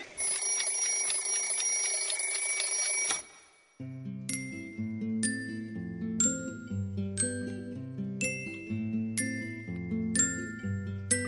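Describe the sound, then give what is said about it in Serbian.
An alarm clock rings loud and bright with a metallic, continuous jangle for about three seconds, then cuts off abruptly. A gentle chiming melody of bell-like notes follows. “Budilnik.”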